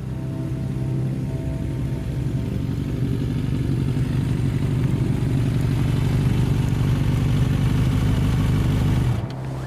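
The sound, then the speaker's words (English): Motorcycle engine eases off the throttle and coasts downhill, holding a rough, even low-pitched rumble throughout before cutting out abruptly near the end. “I ease off the throttle and let the bike coast down the slope”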